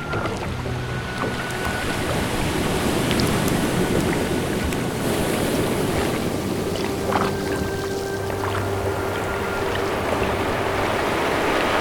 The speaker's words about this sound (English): Now start paddling with that oar until we're far enough out that the current can take us where we need to go.